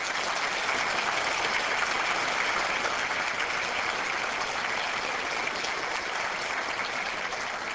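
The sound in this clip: Audience applause welcomes a lecturer before an evening talk. The clapping is soft, even and continuous, with a hiss-like texture and no breaks.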